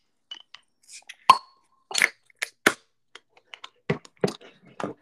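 A beer is cracked open, heard as a sharp pop followed by many scattered clicks, snaps and brief hissy bursts separated by quiet gaps.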